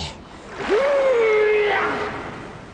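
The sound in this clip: A large fish throws up a surge of sea water, a rushing splash that swells and fades over about a second and a half, with a thin sliding tone running through it.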